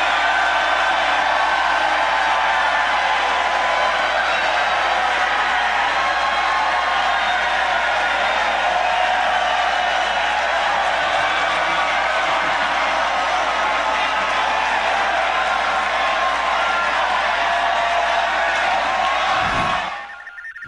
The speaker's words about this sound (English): Now in the 2011 recording, you can hear a truly excited crowd.